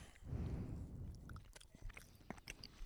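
Someone chews a dry piece of food, with faint, wet mastication and soft crunches and squishes coming in an irregular rhythm.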